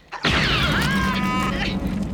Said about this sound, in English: That was no quake. It started when my first shot hit the ground. Try it again.